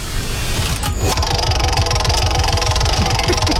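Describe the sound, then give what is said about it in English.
A prize wheel spinning during a game, giving a rapid, steady stream of clicking ticks that continues evenly throughout, with a dense mechanical clatter underneath. “shall we spin the wheel, guys?”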